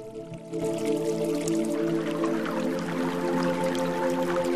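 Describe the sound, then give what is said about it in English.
Rain drips from tree branches and water trickles down a grassy hillside, a soft, continuous patter and trickle over sustained steady tones. “Rain drips from the branches of a tree, and water trickles down a grassy hillside.”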